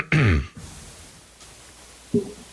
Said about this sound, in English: you hear just the slightest clearing of the throat from the guard